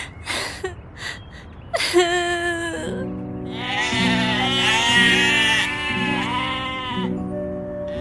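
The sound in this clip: Sheep bleating in a children's story set in the fields, many wavering, overlapping bleats that build into a loud, continuous chorus after a few short breathy sounds at the start.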